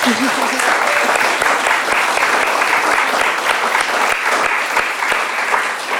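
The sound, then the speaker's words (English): An audience applauds a speaker with dense, steady clapping that holds at an even level for about six seconds. “Thank you. Give it up for Miles.”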